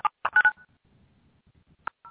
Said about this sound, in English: I'm going to dial us in, so I will be right back.